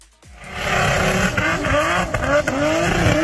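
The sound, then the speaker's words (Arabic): Drift cars roar around a dedicated drift track, their engines revving hard in a loud, continuous drone whose pitch repeatedly climbs and dips, with tyre noise woven through. “عدنا مع هاي الأصوات اللي كثير من شبابنا بحبوها، ولكن مش بالشوارع، مش بشوارع البلدات العربية ولا بالشوارع الرئيسية، إنما بحلبات مخصصة، حلبات الدريفت،”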